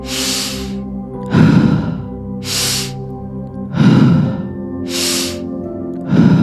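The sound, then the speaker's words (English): Rhythmic breathing from a guided breathwork exercise, with three cycles of airy, hissing inhales, each followed by a heavier, breathy exhale. The loop is loud and even, over a steady sustained tonal background. “when you're ready, starting up that breath pattern and keeping it going on a continual loop.”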